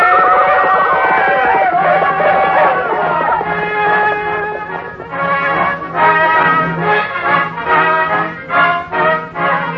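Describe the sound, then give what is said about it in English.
Horses neighing and galloping in a Western adventure drama: a loud whinny opens, then a strongly rhythmic pulsing section follows, all loud and without talk. “Yes, here they come. They're riding fast, they're riding hard.”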